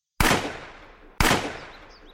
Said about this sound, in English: I put two more rounds in his skull, which caused his head to once again violently flail backwards, smashing into the ground.